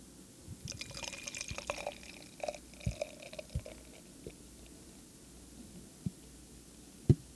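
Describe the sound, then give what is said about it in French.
A foamy drink poured into a glass gives a faint liquid trickle with scattered small drips and clicks, then a single sharper knock near the end. “Je continue à verser, mais on n'entend plus parce qu'il y a de la mousse, puis parce que le verre commence à être plein, tout ça, on entend moins, mais c'est beau.”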